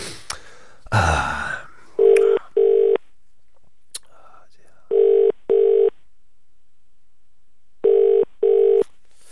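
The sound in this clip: A telephone call is placed after a dial attempt, and the line rings in three double-burst pairs of a steady mid-pitched ringing tone, evenly spaced and alone, after a short burst of rustling noise at the start.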